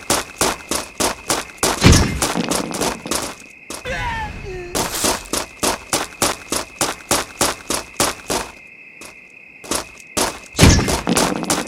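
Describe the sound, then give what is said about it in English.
A grenade launcher fires in a video game, many punchy thumps in a rapid, steady rhythm with a short pause midway before the volley resumes. “Grenade launcher.”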